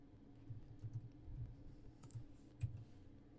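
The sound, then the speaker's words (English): Faint, irregular clicking of typing on a computer keyboard, a few scattered key taps spread across the moment with one sharper stroke near the end. “Exit out of this. Type in Two Bears Safety.”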